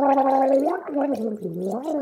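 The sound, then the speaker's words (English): Gargling: a voiced, bubbling throat tone wavers up and down in pitch for about two seconds, loud and continuous, with no words. “Did you gargle?”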